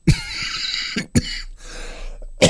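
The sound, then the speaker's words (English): Several short, harsh coughs break over music playing in the background. A pair comes close together in the middle and a single one falls at each end. “I suddenly develop this desperate urge to cough, and it comes at the most inappropriate moment.”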